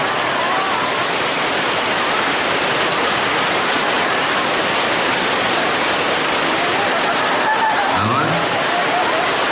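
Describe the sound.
Heavy, steady rain makes a dense, continuous hiss that stays loud and unbroken from start to finish, with a brief faint low sound near the end.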